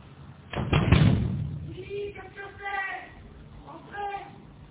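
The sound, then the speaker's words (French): Hard knocking on the glass door of a concierge's lodge: a loud burst of raps near the start, followed by a muffled voice and quieter sounds. “Sur la porte vitrée de la loge de la concierge, il y a un écriteau qui dit « Frappez fort ». Robert frappe. Aucun effet. Il frappe plus fort.”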